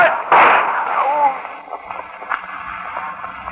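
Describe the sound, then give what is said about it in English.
A single gunshot in a tense, dramatized confrontation: one sharp, loud report with a noisy, fading tail, followed by quieter scattered sounds. “But don't shoot me again, boss. Please don't.”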